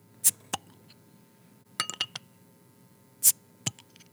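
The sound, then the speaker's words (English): Sharp glassy clinks as a bottle of Oktoberfest beer is opened: several bright, separate clicks and taps spread across quiet gaps, with a small cluster of clinks in the middle. “Do you want me to crack open Oktoberfest?”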